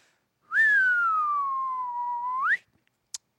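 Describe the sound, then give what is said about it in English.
A person whistling one sustained note that glides slowly downward for about two seconds, then sweeps sharply upward at the end. A single faint click follows after the whistle stops. “I got a perfect audio of your whistle.”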